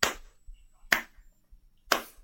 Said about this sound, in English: No, you're faking. There's no way you can be that bad at clapping.